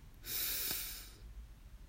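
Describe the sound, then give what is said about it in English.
One deep inhalation during a guided relaxation, a soft, airy rushing hiss lasting about a second that swells and then fades, heard alone with no talking. “And let's take a deep breath in”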